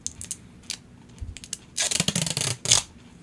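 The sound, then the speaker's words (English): Adhesive tape rips off a roll onto a book box in a few harsh, crackling pulls, preceded by light handling clicks. “Why are you wasting so much tape on that?”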